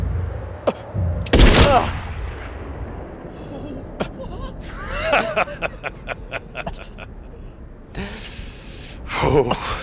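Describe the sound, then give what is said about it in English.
A gunshot, fired at a man wearing a vest, cracks out loudly early on. A string of fainter sharp clicks and thumps follows, then a brief burst of harsh noise near the end. “Getting shot in a vest still hurts a hell of a lot, don't it, son? Worse than a kick with a steel-toed boot. I heard the shot, but didn't feel it at first.”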